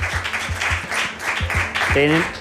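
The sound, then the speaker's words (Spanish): Audience applause at a talk, a busy patter of clapping with a voice breaking in near the end. “Pido un aplauso para González Gómez García.”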